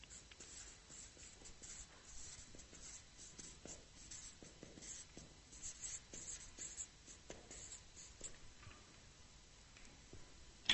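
Pen scratching on paper in many short, uneven strokes, a steady quiet rasp of writing with no voices and a small bump at the very end.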